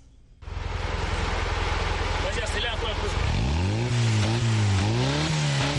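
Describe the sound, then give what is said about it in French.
A small blue off-road pickup truck, built from recycled parts, starts with a loud clattering rumble. Its engine then revs up and down in a few surging swells. “Cédric ne passe pas inaperçu lorsqu'il parcourt les rues de Bafoussam au volant de sa pick-up. Fabriqué à partir de pièces recyclées, le petit camion bleu attire beaucoup de regards”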